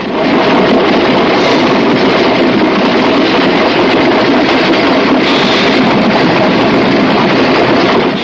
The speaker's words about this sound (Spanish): Sigue andando y cambia de vagón. Pasa ante JJ que fuma en la plataforma de unión entre los dos vagones.